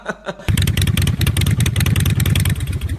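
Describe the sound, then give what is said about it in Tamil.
A new vehicle's engine bursts in after a short quiet lead-in and keeps running loud and steady, a low throbbing rumble with rapid pulsing and mechanical clatter. “ஓரம் ஓரம் ஓரம் வண்டி வருது ஓரம் ஓரம் ஓரம்”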